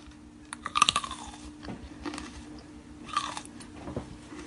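Crunchy biting and chewing of food right at the microphone: a quick cluster of sharp crunches near the start, then scattered softer chewing crunches throughout, with no talking.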